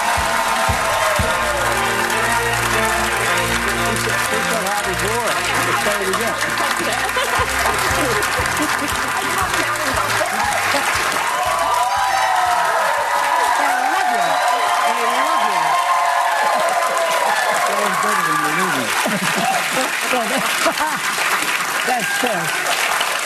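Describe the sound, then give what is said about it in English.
A studio audience of a daytime talk show applauds and cheers as a former president takes his seat. The steady, dense clapping goes on throughout, with whoops over it and voices talking underneath. “Listen to the audience reaction and the fawning that the ladies of the View do to the former president.”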